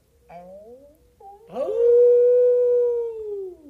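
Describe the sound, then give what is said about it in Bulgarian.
Wolf howling in a forest: a few short whining, rising yelps come first, then a long, loud, sustained tonal howl that holds steady and falls in pitch at the very end. “Ми, като че ли чувам гласа на вълчан?”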